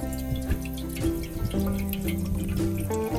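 Water bought at a roadside station is poured into a pot during a drive. The pour runs as a steady, moderately loud trickle from start to end, with no talking.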